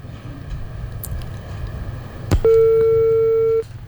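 A telephone busy tone after a call-in caller's line is cut off: a faint click, then one steady, mid-pitched electronic tone held for just over a second before it stops, over low background hum.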